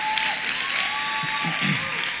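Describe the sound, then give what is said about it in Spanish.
Applause rises from an audience during a sermon, a dense, steady clapping that holds at an even level throughout, with a voice and sustained tones running over it. “Él venció la muerte. Dale ese aplauso.”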